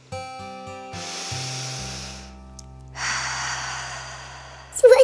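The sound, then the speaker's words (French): A deep breath in through the nose and out through the mouth: two long, airy breath sounds, the second longer than the first, over soft, sustained musical tones. “Inspire doucement par le nez et souffle profondément par la bouche.”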